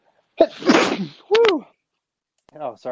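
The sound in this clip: A single sneeze bursts out sharply, followed by brief talk.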